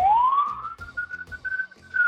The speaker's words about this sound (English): just dealing with some ambulances in the New York traffic.